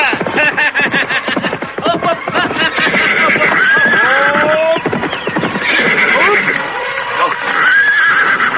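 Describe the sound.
Horses neigh and whinny loudly and repeatedly, their high, shaky calls rising and falling, with clip-clopping hooves underneath.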